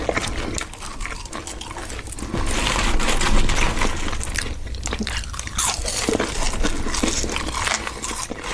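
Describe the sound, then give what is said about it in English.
Crunching and chewing from an ASMR recording: dense, continuous crisp bites and wet mastication noises that run the whole way through, with no talking. “So, this is called ASMR. I don't know what the acronym means. But ASMR, we've watched one of these clips before.”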